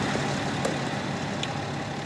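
A car engine runs at a low, steady hum as the car reverses back in, with no marked change in pitch or level and no voices.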